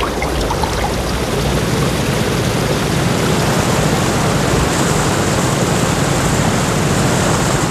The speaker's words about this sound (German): Die Strömung wird immer reißender.